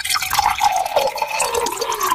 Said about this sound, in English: What was the sound? Somebody pouring a drink. Yep. That's it. That is it. Pouring a drink.